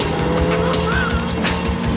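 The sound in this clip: Car racing through a chase and driving over a pavement: a steady, loud engine roar at speed with a brief tire squeal partway through.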